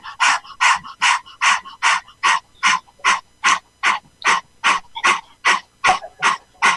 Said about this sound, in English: You have to breathe out from the mouth, release all the tension, bacteria, virus. Do like this.